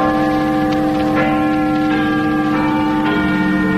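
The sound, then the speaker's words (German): Big Ben in London striking eight o'clock: a loud, deep bell whose rich, humming resonance rings on without a break, with a few fresh strikes layered over the sustained tone. “Guten Abend, hier ist der Londoner Rundfunk. Big Ben hat 8 Uhr geschlagen.”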